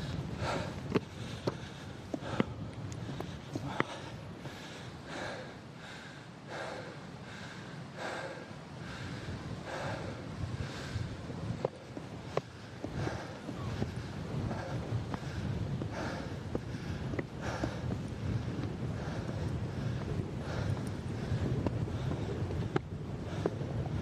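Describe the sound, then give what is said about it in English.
Wind blowing outdoors in serious, picking-up conditions: a steady low rushing rumble buffets the microphone, broken by a few sharp bumps and gusty surges throughout, with no talk. “I feel the wind picking up here as well.”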